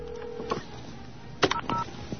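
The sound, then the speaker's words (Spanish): Telephone line tones as a listener's call comes in on a radio call-in line: a steady tone fades out, then a few short dial-type beeps follow, all with a narrow, phone-line quality. “la línea está abierta para todos. Tenemos una llamada.”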